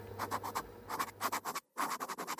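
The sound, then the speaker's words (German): Pen scratching across paper at a kitchen table as someone writes a letter: many quick, rhythmic strokes with a short pause near the end, then more strokes. “Er nahm den Brief, setzte sich an den Küchentisch und griff zu Stift und Papier.”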